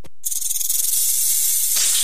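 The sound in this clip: Snake hissing in one loud, sharp, sustained hiss that starts abruptly and holds steady for well over a second before the sound changes near the end.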